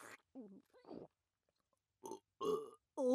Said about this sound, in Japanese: 鼻くそしゃぶりすぎて、ゲップまで出ちゃいました。